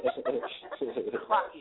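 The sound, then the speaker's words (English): A person imitates a chicken clucking with the voice, producing many short, choppy clucking bursts in a quick, uneven rhythm at moderate loudness. “She a bird. She clucking.”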